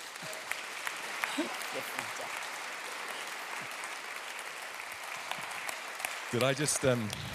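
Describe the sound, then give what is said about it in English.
Audience applause welcoming a reverend to speak at a church gathering: a dense, steady wash of clapping that holds at an even level, with a voice briefly heard near the end. “I'd love you to put your hands together and give a very warm welcome to the Reverend Dr. Matthew Reynolds.”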